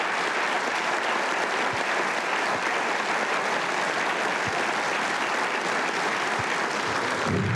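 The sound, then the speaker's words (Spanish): Steady applause for a young government minister at a national public event. Dense, even clapping holds at a constant loudness for the whole stretch, with no speech over it. “yo pido un aplauso para este ministro, este joven ministro.”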